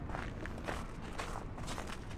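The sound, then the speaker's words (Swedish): Footsteps of someone walking on between public bronze sculptures: a steady series of soft, scuffing steps at an even pace over a constant, fairly quiet background, with no voices. “Ska vi vandra vidare kanske och titta på även Woman of Flame?”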